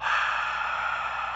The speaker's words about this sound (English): Now, if I hold my vocal cords stiff as I breathe out, it sounds like this.